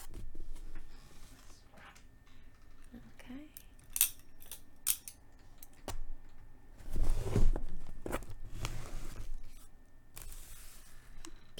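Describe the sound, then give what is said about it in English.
A foil package being opened gives crinkling, rustling and a few sharp snips or tears, with a louder crackling burst about two-thirds of the way through, all at moderate level. “And I think we should open this foil and see what's inside.”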